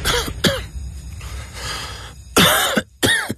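A person coughs in a few harsh, dry bursts: two quick coughs, a short pause with faint throat noise, then two louder coughs close together.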